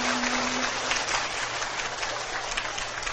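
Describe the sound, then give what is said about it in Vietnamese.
Clapping from an audience at a Buddhist dharma talk fills the whole moment. It is a dense, even, rain-like patter with no pauses and no clear voices. “Hình như hát vỗ tay lớn hơn giảng nè.”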